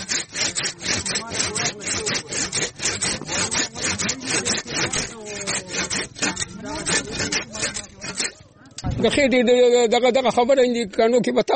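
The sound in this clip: Rhythmic rasping of a hand saw cutting branches of a wild tree, with many quick, regular strokes that pause briefly before a different sustained tonal sound takes over at the end.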